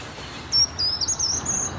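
High-pitched bird song in a forest: a thin, wavering whistled phrase, faint and heard far off, rising and dipping slightly over a steady soft background hiss.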